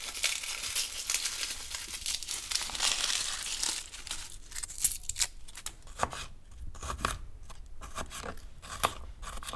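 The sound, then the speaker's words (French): Papery crackling and crinkling come from four or five garlic cloves being peeled and cut. Soft rustling gives way to a run of crisp, sharp cutting clicks in the second half. “On a besoin de 4-5 gousses d'ail qu'on va aussi éplucher et découper.”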